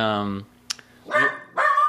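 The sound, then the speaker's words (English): A dog that has just come back from a walk gives two short, harsh barks near the end, following a brief sustained tonal sound and a quiet gap. “My dog, Sissy, came back from a walk.”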